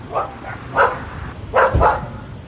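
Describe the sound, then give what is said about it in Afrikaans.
A small spaniel barks in a few short, sharp yaps, irregularly spaced and moderately loud, with brief quieter gaps between them. “maar dis 'n klein spaniel. Hulle is mooi.”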